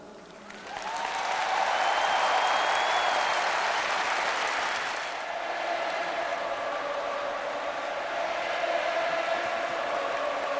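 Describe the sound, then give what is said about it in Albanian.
A burst of crowd applause interrupts a speech by Pope Benedict XVI. It swells quickly after about a second into dense, sustained clapping, eases slightly midway, then carries on steadily to the end. “Papa ju do tha ati shenjti ndërprer nga një shpërthim duartrokitjesh.”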